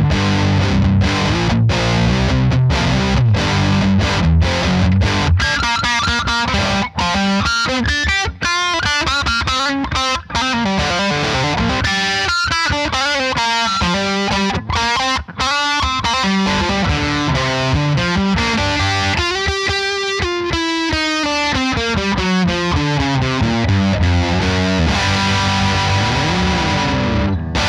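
An electric guitar is played through a high-gain heavy metal distortion with noticeable midrange. It plays loud, continuous chords and riffs with sliding, bending lines, and no voices are heard.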